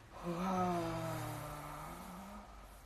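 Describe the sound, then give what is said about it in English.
An audible breath during a guided meditation: one long, faint, voiced exhale that swells at first and then fades slowly, heard alone. “And out like this with a sound. Breathe in like this. And breathe out like that.”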